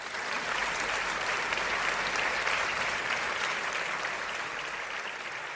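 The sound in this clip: A live audience applauds to welcome two guest hosts onto a show: dense, continuous clapping at a steady, fairly loud level for the whole clip with no break.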